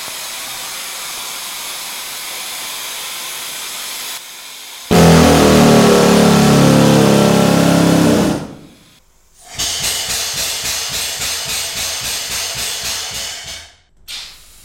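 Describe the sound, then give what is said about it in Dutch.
A compressed-air powered mine lamp hisses loudly and steadily, surging stronger for a few seconds and then cutting out. When the air returns, the hiss pulses in an even, rapid rhythm before stopping. “Dat is in feite een lamp, maar die werkt op perslucht.”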